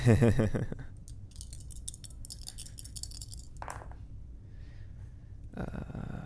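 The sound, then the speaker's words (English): Dice rattle and clatter as they are rolled at a tabletop game, giving a quick run of small, crisp clicks and knocks. “Those dice sound so good on mic right now.”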